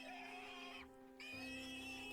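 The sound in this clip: Pigs squealing at night from the back of a house: a faint, sustained high-pitched squeal with strong harmonics breaks off briefly, then resumes, with no talk.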